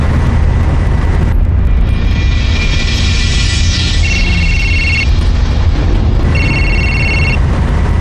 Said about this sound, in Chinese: 踩到底吧，油门， 已经到底了， 再快点， 不行了，到底了，车都快散了。